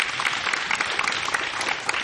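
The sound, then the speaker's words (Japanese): Dense, steady applause from a church audience welcoming a preacher, with many hands clapping at once at an even loudness for about two seconds. “ハレルヤと拍手で歓迎します。”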